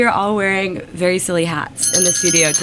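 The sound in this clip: Bright metallic jingling of a jingle bell on a hat, ringing briefly toward the end beneath a person talking.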